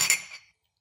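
Beer glasses clinking in a toast over a strong, fruity, spiced beer. A bright glassy chink is followed by a fainter second touch, and both ring briefly before fading to silence within half a second.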